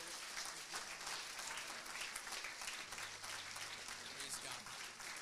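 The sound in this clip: Church audience applauding to welcome guests to the pulpit: dense, steady clapping that holds evenly through the whole stretch, with a few voices faintly mixed into the crowd noise.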